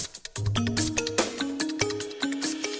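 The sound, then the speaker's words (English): Synth-based bedding music in an early-1990s style, with bright plucked synth notes over a bouncing bass line and crisp percussive hits. It enters after a brief lead-in and continues at a moderate, even level. “Ah, synth-based bedding music, so early 90s.”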